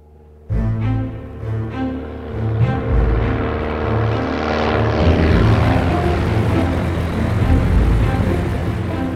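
A propeller airplane's engine droning in flight as passengers wait in the back for a signal from the cockpit. It starts abruptly, becomes a steady humming drone with strong tonal harmonics, then swells into a fuller, louder roar that continues to the end.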